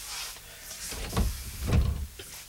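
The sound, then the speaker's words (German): A window being opened in a 1957 German radio play: two low, breathy scraping thuds about half a second apart, with a soft hiss beneath. “Wie wär's, wenn man das Fenster öffnet? Ein guter Gedanke.”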